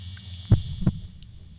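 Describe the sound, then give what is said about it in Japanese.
Heartbeat sounds: two low, muffled thumps roughly a third of a second apart over a steady background hum. “どんどんどんどんあなたの心臓の音が速くなる。”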